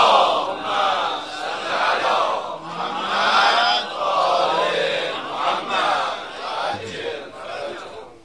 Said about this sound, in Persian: یه صلوات بلند مرحمت کنید.